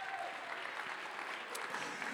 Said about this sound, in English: Once more, clap your hands, lift your voice. Give God a shout.